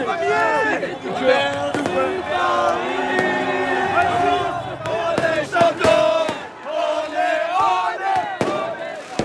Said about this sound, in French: Benjamin Illy avec ses supporters parisiens hier soir. Voilà, des supporters qui exultent et on les comprend